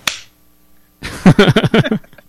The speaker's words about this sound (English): I'll high five to that.